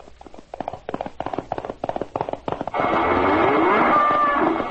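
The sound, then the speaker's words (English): Hoofbeats of a charging moose pound in a fast, steady run of heavy thuds, then a loud, sustained rush of noise takes over. “The moose charges.”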